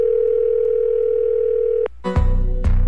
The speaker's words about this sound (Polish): wybiera numer. W telefonicznym skrócie.